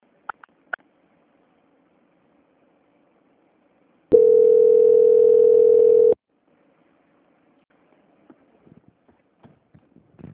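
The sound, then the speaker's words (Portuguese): A phone call transfer tone sounds as a single steady mid-pitched beep lasting about two seconds, alone on a quiet line, with a few faint clicks before and after. “A ligação vai ficar muda e outra pessoa vai atender. Só um momento. Transferência.”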